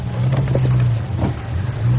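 A car drives off, its engine giving a loud, steady low rumble with a brief rev partway through and no voices.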